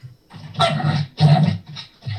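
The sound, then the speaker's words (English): A dog in a house barks during a video call, giving a few low, muffled, rough barks in quick succession, each fairly short, with no talk over them. “What was that? Was that dog bark from one of you?”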